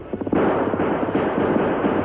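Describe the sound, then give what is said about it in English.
A gun fires during a horseback chase. A few sharp cracks open into a dense, continuous burst of overlapping blasts and rumbling noise that stays loud throughout. “We'll keep just out of range until he empties his other gun.”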